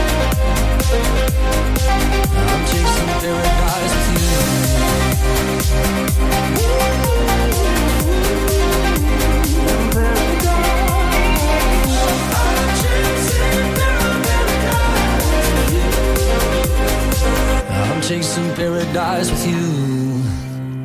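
A new 2025 pop track plays loud and dense with a steady, driving beat and a full mix. The low end thins out for the last few seconds.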